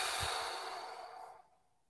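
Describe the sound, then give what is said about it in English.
Deep, slow breathing during a guided relaxation exercise: a soft, airy rush of breath that holds steady, then tapers off and fades over about a second and a half, with no voices. “Okay, deep breath. Inhale. And exhale.”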